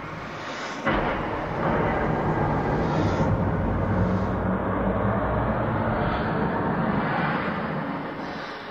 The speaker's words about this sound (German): Jawohl, die Rakete ist gestartet.